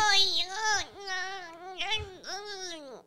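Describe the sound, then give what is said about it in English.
A person imitates a baby crying with a wavering, high, nasal wail. The voice swells and breaks in three drawn-out sobbing cries, heard alone. “Do you want to do that baby noise you were doing earlier?”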